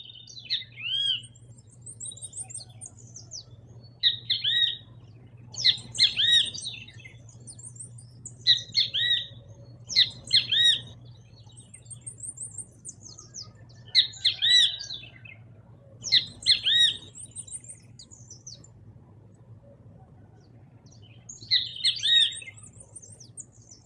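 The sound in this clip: A great kiskadee (bem-te-vi) sings in the Amazon rainforest, giving many repeated bright, squawky calls in short bursts over a low, steady background hum.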